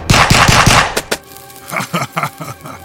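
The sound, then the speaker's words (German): Gunfire aimed at a stone-bodied monster: a rapid, loud machine-gun burst, then two sharp separate cracks and a scattering of quieter bangs. “Die Kugeln prallen vom steinigen Körper des Monsters ab.”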